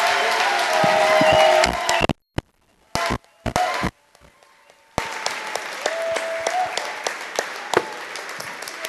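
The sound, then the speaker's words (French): An audience claps to thank the Lord during a prayer gathering: loud, dense applause that breaks off after about two seconds, leaving a few scattered claps, then swells back into steady clapping. “Acclamons-le maintenant. Oh, so let's clap for Him now.”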